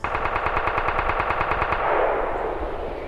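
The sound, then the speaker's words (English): Rapid automatic gunfire: many sharp shots in a fast, even stream, followed by a broad rushing roar that slowly fades. “I shot you with metaphysical bullets”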